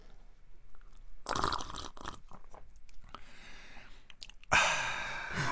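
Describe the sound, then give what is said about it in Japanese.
Sipping and eating sounds from instant crab soup made by dissolving a crab product in hot water: a few noisy crunchy bursts with breaths, ending in a loud, long hissing slurp. “カニの恵みをお湯で溶いただけのものいただきますよ。”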